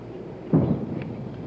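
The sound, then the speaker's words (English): A single heavy boom from naval guns firing a salute over the Florida Straits at Key West, a deep burst with a short rumbling tail that fades into low background noise. “Naval guns fired 21 rounds over the Florida Straits as a salute to the former commander-in-chief.”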